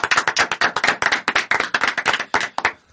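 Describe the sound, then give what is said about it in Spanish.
Applause for a child from a small group, many brisk, sharp claps at a steady pace that stop abruptly. “Un aplauso para el niño.”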